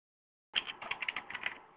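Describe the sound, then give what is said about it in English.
Typing a web address on a computer keyboard: a quick run of faint, crisp key clicks that begins abruptly after a moment of silence and continues at an uneven, rapid pace. “I'm going to type”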